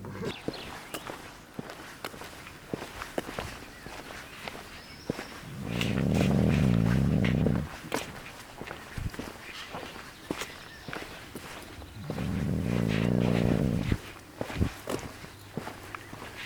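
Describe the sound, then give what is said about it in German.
Footsteps of people walking along the Weser river on the way to a pub, a long run of many steady steps broken by two louder stretches of low, rumbling noise. “Wir gehen an der Weser entlang zum Stadtkrug.”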